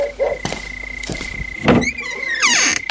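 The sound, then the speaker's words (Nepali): A door being opened late at night after knocking: a few thuds and clunks, then squeaky creaking sweeps near the end. “जानु त ढोका खोल्नु बुढा”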